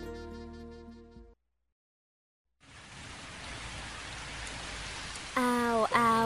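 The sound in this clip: Light rain falls in a soft, steady hiss that starts after a short tonal passage and a brief pause, continuing evenly, with a voice starting over it near the end.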